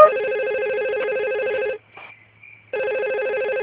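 A mobile phone rings during a power cut with a loud, bright, warbling electronic ringtone. It plays alone, breaks off for about a second, then resumes.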